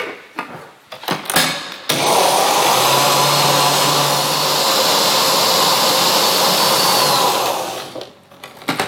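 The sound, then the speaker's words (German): A blender mixes homemade mayonnaise with a garlic clove and a teaspoon of onion powder. A few clattering knocks come first, then a loud, steady whirring roar runs for about six seconds before it stops. “Der letzte Pep machen wir hier mit einer Knoblauchzehe und 1 Teelöffel Zwiebelpulver. Und jetzt tun wir das Ganze mixen.”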